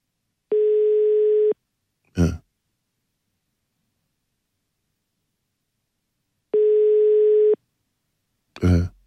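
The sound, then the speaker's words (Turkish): Ringback tone of an outgoing phone call: two steady, one-second buzzing tones about six seconds apart, each followed by a brief noisy burst. “Bir kere daha çaldırıp kapatıyorum.”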